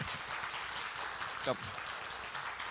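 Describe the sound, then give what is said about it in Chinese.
Applause welcoming a pastor and his family, a dense, steady wash of clapping from a crowd that carries on evenly while a voice speaks over it. “我们用德州最热烈的掌声去欢迎他好”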